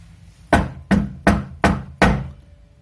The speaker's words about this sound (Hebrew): דפיקה בדלת, כל דודי דופק